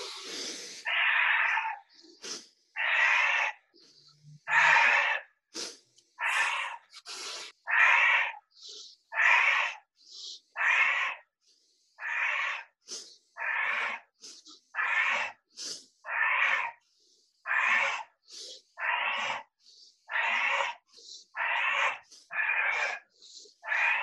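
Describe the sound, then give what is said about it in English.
Deep, forceful breathing in through the nose and out through the mouth during a guided breathing exercise, with many evenly spaced breaths in a steady rhythm, each a loud airy rush separated by brief gaps. “30, 30 breaths in through the nose, out through the mouth. Here we go.”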